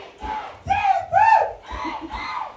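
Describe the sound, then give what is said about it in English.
The home crowd at a Friday night high school football game between Westmoreland and King George cheers and yells, the roar rising in a few loud swells and easing between them. “Westmoreland crowd getting into it.”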